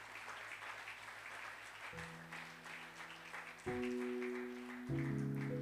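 A church audience applauds to celebrate a couple's wedding anniversary, steady dense clapping that continues while sustained keyboard chords enter and shift underneath.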